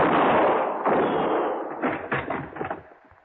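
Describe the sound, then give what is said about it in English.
Gunfire: a heavy blast with a long, rolling, rumbling tail, followed by a few sharper thuds and cracks that fade out. “Now, well, I can see the flash of your gun.”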